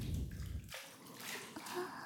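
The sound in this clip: Water splashing as a small child is washed in a bath: soft, irregular sloshing and trickling, faint overall, with a fuller, lower burst of movement at the start before lighter swishes.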